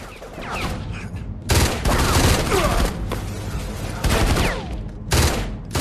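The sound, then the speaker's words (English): Heavy gunfire rattles in dense, continuous volleys, swelling in several loud surges. Thin whining streaks that sound like bullets ricocheting cut through the shots. “Yeah, these bullets should be ricocheting everywhere.”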